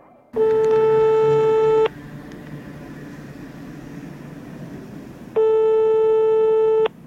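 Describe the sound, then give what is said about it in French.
Telephone ringing tone sounds while calling a listener: two steady, evenly pitched tones, each about one and a half seconds long, separated by a longer pause filled with faint hiss. “J'appelle une auditrice de Pop & Co.”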